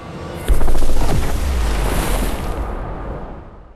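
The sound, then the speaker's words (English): Trees explode in a magic blast in a 2019 fantasy adventure film: a sudden loud boom bursts in, then a sustained roaring, crackling rumble slowly fades away. “He conjures and the trees explode.”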